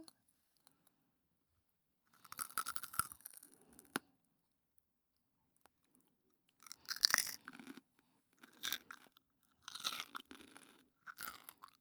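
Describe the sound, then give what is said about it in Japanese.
Someone chews crunchy food in quiet, crisp bursts of crunching separated by stretches of near silence, with a few small clicks between bites. “食べますね。 あーん。”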